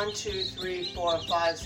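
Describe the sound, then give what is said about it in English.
About a dozen baby chicks chirp crowded together in a small brooder, their high, rapid peeps overlapping in a continuous, fluttering chorus. “8 chicks. And there's probably still 4 more left in there. That's 12 little chicks in a very small space, right?”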